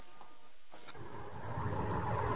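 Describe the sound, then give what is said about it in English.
A car drives along an endless stretch of road through heat haze in a scene from the film Thelma & Louise. Its low engine rumble builds in loudness after a quieter opening. “Thelma and Louise are driving along an endless stretch of road, a heat haze distorting the air.”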